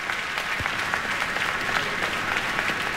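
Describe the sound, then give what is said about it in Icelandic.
Concert audience applause for a performing duo at the closing concert of an arts festival in Elborg: dense, steady clapping from many hands, sustained evenly with no voices. “Og tvíhekjunum var að vonum vel fagnað á þessum lokatónleikum listahátíðar í Elborg.”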